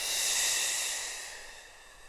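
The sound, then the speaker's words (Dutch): A soft F-sound exhalation in a breathing exercise: a gentle, breathy hiss that holds steady for about a second, then slowly fades out on its own. “En nog drie keer zo, een zachte F. Maak luider.”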